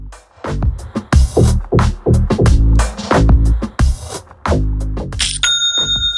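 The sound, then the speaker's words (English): Shopify's new-sale notification chime rings out at the end, a bright, clear bell-like ding with a sustained ring, following several seconds of rhythmic, bass-heavy music. “I love that sound. Oh, that sound makes me smile. It's the sound of another sale on Shopify, the all-in-one commerce platform”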